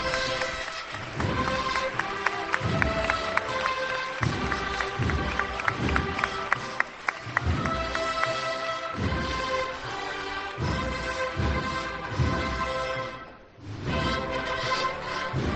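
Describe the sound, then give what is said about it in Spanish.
A brass band from Huelva plays the Marcha Real in a street procession for the Señor de las Penas de San Roque in Seville: sustained brass chords over steady, regular drum beats, with a murmuring crowd beneath. “Esta banda también que llega desde Huelva, pues se escuchan esos primeros sones con la marcha real para dar la bienvenida al Señor de las Penas de San Roque por las calles de la ciudad. Lo escuchamos.”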